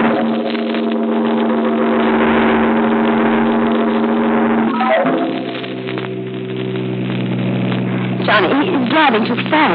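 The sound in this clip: A car engine drones steadily as the car is driven fast down a dark road at night. The hum holds even throughout, with voices briefly heard over it.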